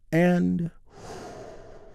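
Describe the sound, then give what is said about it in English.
A big, deep breath during a guided relaxation exercise: a short voiced sound, then a long, soft, airy exhale. “We begin by taking a big, deep healing breath all together.”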